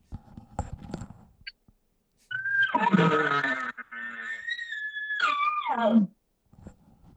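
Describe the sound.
A voice imitates an elk lip bawl, a short bugle-style call aimed at cow elk. It is a loud, sustained wailing tone of several seconds that climbs and then drops, with a few soft taps before and after.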